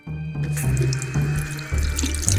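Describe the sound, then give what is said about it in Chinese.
Water gushes from a kitchen tap as it is turned on, becoming a loud, steady rush of running water that flows continuously to rinse a scalded hand. “妈妈赶快打开水龙头”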